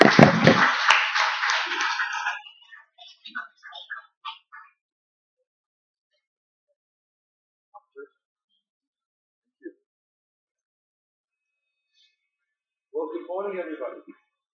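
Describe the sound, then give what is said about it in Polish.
Applause from an audience welcoming a pastor at a Polish gathering: a brief burst of brisk clapping that dies away after about two seconds, followed by a few scattered claps and a long near-silence before a voice begins speaking. “Przywitajmy pastora Johna oklaskami.”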